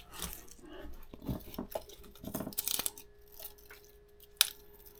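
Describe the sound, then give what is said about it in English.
Faint, crisp crackling and tearing as the dry skin is peeled off a shallot by hand: a few short dry rustles spread out, then a sharper snap near the end. “Shallot. We need to peel the shallot.”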